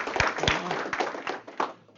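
Hand claps during a sermon: a few sharp, separate claps at an uneven pace, fairly faint over a quiet background.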